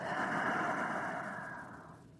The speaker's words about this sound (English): We might start by taking three deep breaths together inhaling and exhaling.